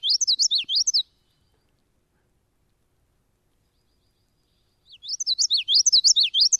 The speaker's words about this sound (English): Think witchity, witchity, witchity. Yeah. It's one of the vocalizations of the common yellowthroat, which is a warbler.